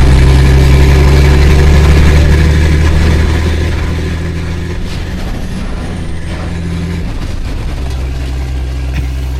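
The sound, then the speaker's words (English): Steady low engine rumble from a semi truck with a cone-shaped skirt on its front, running continuously throughout and dropping slightly in loudness after about four seconds. “He's driving a semi with it's like a cone.”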